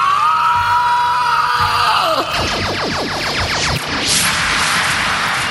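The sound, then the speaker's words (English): Shrill screech of the flying Screecher creatures from a film: a loud, harsh shriek that falls in pitch and then breaks into a fast rattling pulse before a final hissing cry. “I mean, that screecher bitch sound, it gives me nightmares.”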